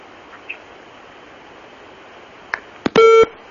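Telephone call-in line disconnecting: a few faint clicks, then a short, loud electronic tone at the end of an otherwise quiet line.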